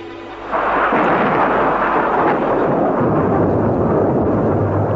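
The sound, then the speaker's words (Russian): Thunder rolls over a leafless forest on a dark late-November night. A quiet half-second gives way to a loud, broad rumble that keeps rolling heavily and steadily to the end. “Гром пророкотал еще раз, теперь уже ближе. Прокатился по безлистому лесу грузно и широко.”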